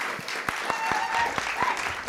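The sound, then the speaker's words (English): An audience applauds as two guests are called up to the stage for a conversation about climate change. A few sharp, distinct claps stand out above a continuous bed of softer clapping. “And you can give them a round of applause.”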